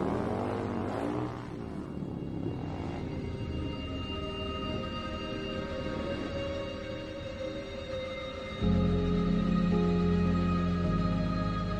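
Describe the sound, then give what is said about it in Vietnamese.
Honda motorbike engine running and pulling away: a fairly faint, steady low rumble with a humming harmonic tone that turns into a louder, deeper drone near the end, with no voices. “đành thở dài nổ chiếc xe máy Honda nhắm hướng thành phố mà lao vụt đi.”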